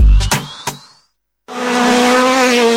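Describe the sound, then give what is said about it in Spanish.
Rally car engines roar: a short burst of revving with sharp bangs, a brief gap of silence, then a loud sustained engine drone with a steady, bright tone. “Muy pronto rugen los motores en los caminos del departamento. Rally de 33.”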